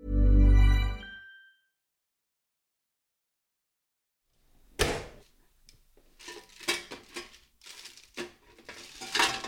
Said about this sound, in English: That was the sound of me taking my fish fingers out of the oven.